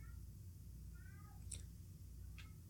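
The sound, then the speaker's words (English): A domestic cat gives a few faint, brief meows and chirps over a steady low hum, the calls thin and high against the constant background. “Yes, that's my cat.”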